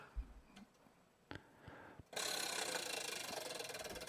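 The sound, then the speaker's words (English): A prize wheel being spun makes ratchet-like clicking. A few scattered clicks come first, then a loud, dense stream of rapid ticks runs steadily to the end. “Spin that wheel, why don't you?”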